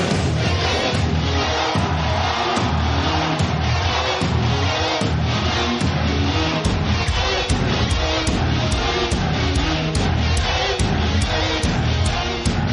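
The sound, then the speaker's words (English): Loud, dense crowd and event noise at the Tesla Model X reveal event: a continuous wall of sound with regular pulsing beats through the second half and no distinct speech. “that noise you hear is the Model X reveal event. I am here.”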